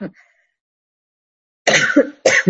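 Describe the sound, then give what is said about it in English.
A person coughs: one brief cough, a short pause, then two harsher, louder coughs in quick succession. “I don't have coronavirus. I have a cough.”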